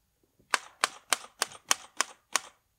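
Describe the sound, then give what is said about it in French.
A typewriter clacking: two faint ticks, then seven sharp, crisp strikes in a fairly even rhythm against silence. “se dirigeait vers sa machine à écrire, la prenait délicatement dans les mains.”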